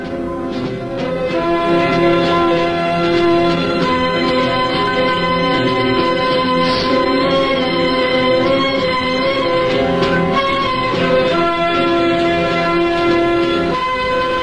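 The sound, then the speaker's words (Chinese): A train speeds away through heavy winter snow, a continuous loud rumble overlaid with a steady, sustained horn-like tone that holds for the whole stretch without pauses or voices. “冬天的大雪越来越大，列车在雪地上飞驶而去”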